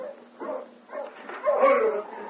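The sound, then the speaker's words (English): Dogs of an arriving sled team bark and yelp, a few muffled, thin calls rising in a short, lively stretch. “Hey, there's somebody coming in with a dog team.”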